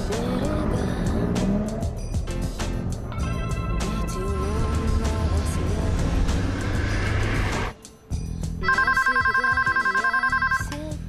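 A telephone rings near the end with a bright, rapidly trilling electronic tone, heard after a brief drop in sound that follows a long stretch of dense, busy noise.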